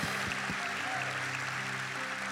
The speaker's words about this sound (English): So come on, put your hands together.